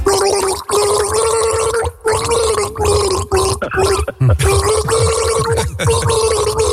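A person gargles a classic rock song, the bubbling throat sound carrying a recognizable tune. The loud gargling runs almost continuously, with its pitch shifting from note to note and only a few short breaks for breath.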